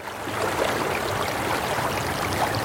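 A river flows through a large European city in summer with a steady, even rush of water that holds at a constant level throughout, with no voices or other distinct sounds.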